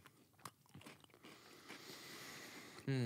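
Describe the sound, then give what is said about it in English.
A round shortbread butter cookie being bitten and chewed: a few faint, sharp crunches in the first second and a half, then quieter grinding mastication. No talk is heard. “These are butter cookies. Got it. I'm going to go with the round one. Yeah, let's do it. That looks good. All right. Butter cookie. 3, 2, 1. Harder than I thought it was going to be. So it's just a shortbread cookie.”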